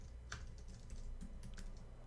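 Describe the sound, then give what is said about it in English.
Faint typing on a computer keyboard as a web link is entered: quick, soft clicking keystrokes in an irregular patter over a quiet background. “And I'm going to type in the link.”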